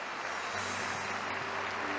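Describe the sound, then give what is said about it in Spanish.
Faint applause from a church audience after a priest's sermon, a dense, even patter of many hands that holds steady throughout. “Aplaudimos tu palabra, Padre.”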